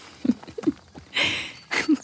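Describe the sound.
Hooves of a stallion being ridden: a few irregular, fairly quiet clops and knocks, with a couple of longer, breathy noise bursts between them.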